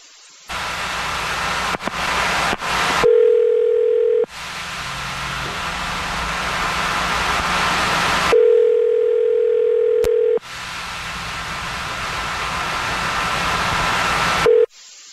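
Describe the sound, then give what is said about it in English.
Ringback tone on an outgoing phone call: steady low tone bursts of about two seconds each, two full rings and the start of a third, separated by longer stretches of loud, hissing noise. “So we're about to call him right now.”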